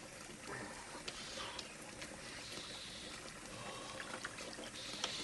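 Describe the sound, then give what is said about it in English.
Water runs from a bathroom sink tap and is splashed onto a face: a faint, steady trickle with a few soft splashes rising above it. “Without looking, he runs water in the sink and splashes it on his face.”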